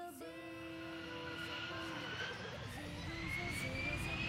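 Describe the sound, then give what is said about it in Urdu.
Airplane flight sound effect in a quiz show: a continuous jet-like roar with a whining tone that climbs steadily in pitch, loud and unbroken for about four seconds. “ایک مرتبہ پھر جہاز الحرم Islamic school کی team کو لے کر سفر طے کرتا ہوا آیا ہے ایران”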